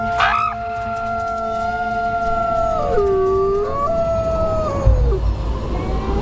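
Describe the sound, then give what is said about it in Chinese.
Wolf howling to call the pack: long, sustained tonal howls hold steady pitches, then bend downward in sliding glides toward the middle and end, loud and clear over a low background rumble with no talking. “这种特殊的叫声有召唤作用，一群狼应声而来。”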